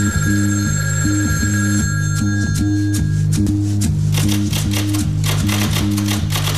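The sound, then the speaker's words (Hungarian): A telephone rings after a number is dialled, a loud trilling ring repeating in a steady rhythm, with sharp clicking noises layered over it. “Csengett a telefon.”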